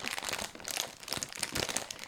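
A plastic bag of Finna shrimp chips crinkles and crackles as it is opened. The rustling is continuous, quiet and uneven.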